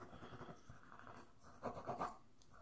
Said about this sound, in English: I'm just writing notes.